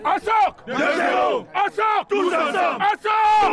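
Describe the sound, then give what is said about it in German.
A battle cry chanted in unison by a visiting veterans' football team from Cameroon on a village pitch in Öhrenfeld before their first match. Loud, tonal group shouts come in a few separate bursts with short gaps between them. “Ein ungewöhnlicher Schlachtruf erklingt da auf dem Fußballplatz im Dahlingeröder Ortsteil Öhrenfeld. Sie stimmten sich so ein auf ihr erstes Spiel”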